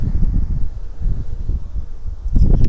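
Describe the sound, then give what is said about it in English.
Strong wind gusts blow outdoors, buffeting the microphone with a deep, uneven rumble that swells and eases, then surges again at the end. No one speaks. “Big wind, can't block it.”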